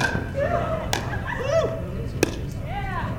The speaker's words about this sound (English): Pickleball is a tennis-like game where you hit a wiffle ball over a net with a paddle. The game you're hearing is being played with paddles made from the stuff of airplanes, specifically the scraps.